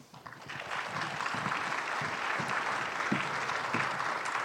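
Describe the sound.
An audience claps to welcome a presenter to the stage. The applause rises quickly at the start and then holds as a steady, dense patter of many hands.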